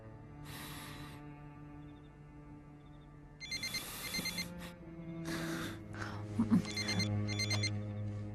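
A telephone rings in several bright, buzzy bursts separated by short gaps. The bursts grow somewhat louder over low, sustained background tones.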